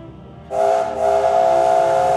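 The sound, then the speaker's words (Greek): Whistle of a big, bright-red steam locomotive painted with a golden tiger: after a low hiss, a loud sustained whistle starts, dips briefly, then holds steady to the end. “Ο Γιόγκ Μπάο είναι μια μεγάλη, θαραλέα, κατακόκκινη ατμομηχανή με έναν πανέμορφο χρυσό τίγρη ζωγραφισμένο. Είναι έξυπνος, ευγενικός και νοιάζεται για όλους και σφυρίζει κάπως έτσι.”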